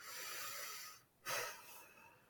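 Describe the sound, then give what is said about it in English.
A faint deep breath taken during a calm pause: soft, breathy airflow, a brief dip into near silence, then a stronger rush of breath that fades away. “So let's just take a deep breath for a moment.”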